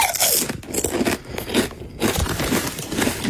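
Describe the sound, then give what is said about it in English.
Crunchy potato chips being chewed, with loud, crisp bites and crackling crunches repeating in an uneven rhythm throughout, with no talk. “Chewing crunchy chips, eating crunchy chips. Yeah, it is. It's potato chips.”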